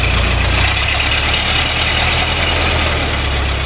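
A 1909 Ford Model T engine runs after a hand-crank start, with the ignition set and a little throttle given from the steering-wheel levers. It is a loud, steady idle with a rhythmic low-pitched chugging beat.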